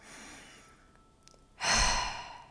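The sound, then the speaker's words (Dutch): Deep breathing, in through the nose and out through the mouth: a soft, drawn-out inhale followed by one loud, breathy exhale that fades. “adem een paar keer diep in en uit. We gaan dat samen doen. In langs de neus en uit langs de mond.”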